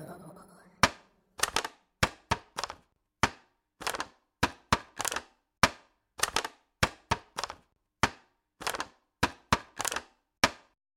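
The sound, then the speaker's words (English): A plastic container that once held strawberries is crushed, producing many sharp, dry crackles and crunches in irregular bursts separated by brief silences. “The answer is plastic. That was a plastic container that I think once had strawberries in it.”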